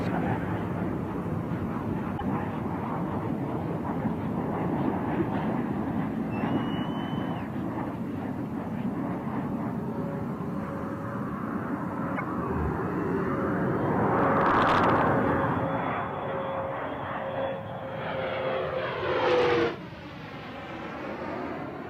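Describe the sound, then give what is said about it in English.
Steady broad roar of the space shuttle Discovery rolling out on runway 22 at Edwards Air Force Base, California, after landing; a continuous rumble swells louder toward the end, then drops away abruptly. “Discovery rolling out on runway 22 at Edwards Air Force Base, California”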